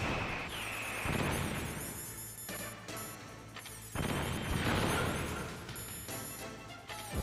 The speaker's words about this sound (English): Another grenade.